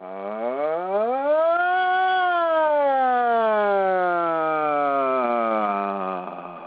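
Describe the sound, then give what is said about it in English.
A human voice imitates a siren on an open 'ah' vowel. It slides up in pitch for about two seconds, then glides slowly back down in one long, unbroken tone with no other sound. “So I invite us together to go ahead and make this siren”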